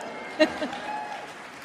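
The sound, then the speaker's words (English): Light, unenthusiastic audience clapping at a Jill Biden speech in San Antonio, faint and brief, with one slightly stronger burst near the start before thinning out. “The clapping wasn't as enthusiastic as I think she was hoping for.”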